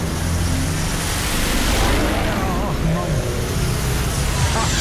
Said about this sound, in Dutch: Dan hoor je even een paar V8'en voorbij komen.